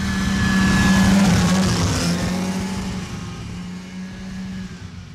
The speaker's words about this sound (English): it wants to phase out the smoky old two-stroke engines, which sound like this.